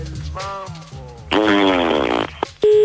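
A fart is blown into a telephone receiver and carried over a phone line as a loud, buzzy, rasping blast lasting nearly a second. A short steady tone follows.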